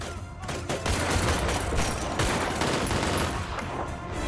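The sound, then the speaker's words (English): Rapid gunfire as shots are fired at police near a car on a street: a dense, loud run of many cracking shots over a low rumble, sustained without a break for the whole clip. “Baxter shoots him.”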